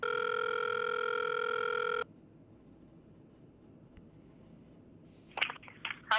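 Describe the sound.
A telephone on speakerphone holds a steady dial tone for about two seconds, falls quiet, then ends with a quick burst of touch-tone dialing beeps.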